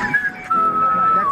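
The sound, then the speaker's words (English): A person whistles a clear, fairly loud sustained note that steps down slightly in pitch partway through and holds steady with a small dip at the end. “Oh, you're a good whistler.”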